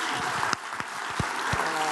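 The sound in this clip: An audience applauds to welcome a speaker onto the stage, a dense, steady wash of clapping that holds evenly throughout.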